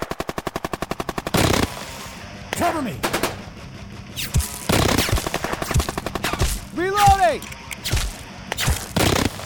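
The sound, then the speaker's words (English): Gunfire rattles through a desert firefight at midday: a rapid automatic burst opens, followed by irregular heavy shots and blasts, with shouting voices mixed in among the firing. “The desert was hot and unforgiving. Sand was everywhere. It was midday. My squad was taking fire. We were running low on supplies. We thought we were goners. We were being flanked, and they were moving on to our location.”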